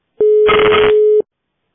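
A telephone ringback tone sounds while a call is being connected: one steady mid-pitched beep lasting about a second, briefly overlaid by a burst of crackly line noise.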